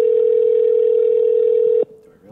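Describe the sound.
A telephone tone sounds as a call is placed to one phone for transfer to another: a loud, steady single-pitched tone holds for nearly two seconds and then cuts off abruptly.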